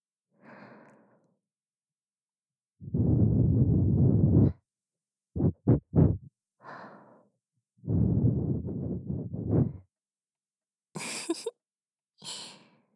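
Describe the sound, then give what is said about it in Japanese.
Gentle blowing into the ear: two long, soft, breathy blows and a few shorter puffs of air, separated by silence, with no talking. “こうしてお耳ふうふうされるの。”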